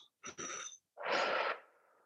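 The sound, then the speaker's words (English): A forceful exhale pushed out through the mouth to empty the lungs during a guided breathing exercise. A short breath comes first, then a long breathy rush that holds before trailing off softly, with no talking. “I want you to pull your belly to your spine and exhale like you're blowing out candles with the intention of emptying yourself of everything that's inside you holding on and locked down.”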